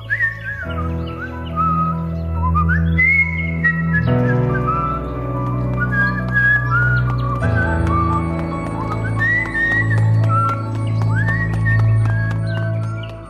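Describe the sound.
A boy whistles a bright, wandering tune of high, wavering notes over a steady musical backing with low, sustained bass tones.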